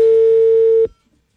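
After the other party hangs up on a call, a telephone gives one loud, steady, mid-pitched tone lasting just under a second. It then cuts off abruptly into silence.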